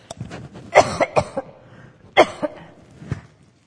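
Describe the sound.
Coughing from a tickle in the throat: two bursts of several dry, harsh coughs, fairly loud, with a short pause between the bursts.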